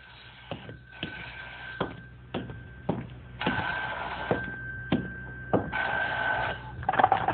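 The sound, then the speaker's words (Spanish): A telephone rings with many sharp, evenly spaced pulses over a steady high tone, loud and clear with no voices. “¡Di órdenes de pasarme una llamada si tenía importancia! ¡Badura cumple con esa recomendación! ¡Contestaré!”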